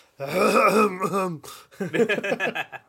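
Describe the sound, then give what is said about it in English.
Throat clearing in two rough, voiced bursts: a long, gravelly rumble followed after a short pause by a choppier series of grunting pulses. No other sound is heard. “Just clear out the throat.”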